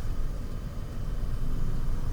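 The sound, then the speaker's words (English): A car drives by with a low, steady engine rumble that grows slightly louder toward the end. “Yeah, so Zach just drove by. He didn't even see me. He'll turn around probably.”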